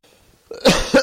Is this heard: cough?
yes

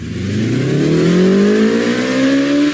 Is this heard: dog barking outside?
no

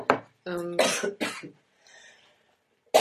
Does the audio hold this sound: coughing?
yes

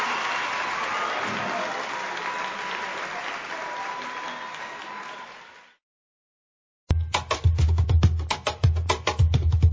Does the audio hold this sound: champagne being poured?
no

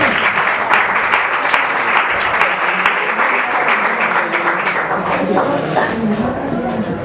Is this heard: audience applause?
yes

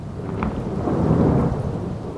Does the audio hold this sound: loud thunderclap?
yes

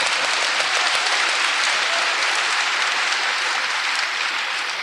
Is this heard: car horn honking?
no

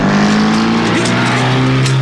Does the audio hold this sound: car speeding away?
yes

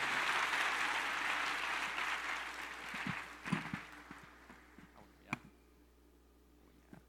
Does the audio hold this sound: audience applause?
yes

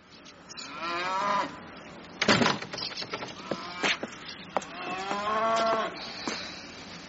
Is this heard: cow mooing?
yes

